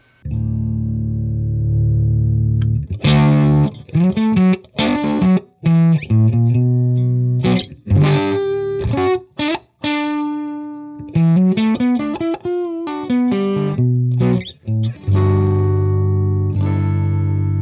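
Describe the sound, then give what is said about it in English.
Electric guitar played through a single-transistor sparkle boost pedal: a sustained opening chord, then a busy passage of picked single notes and short chords, ending on a ringing chord, loud throughout with no talk. “Let's hear the sparkle boost.”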